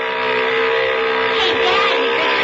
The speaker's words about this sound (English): Yeah, motor sounds okay.